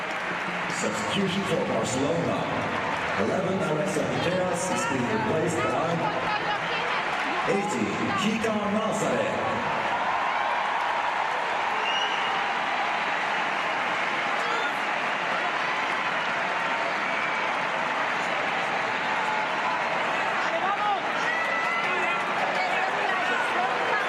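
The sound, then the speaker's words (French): Stadium crowd giving an ovation at a women's football match in Oslo: a sustained, broad roar of cheering and applause that swells after a stretch of talk and then carries on steadily. “Sur l'ovation là encore du Stade Nouleval d'Oslo.”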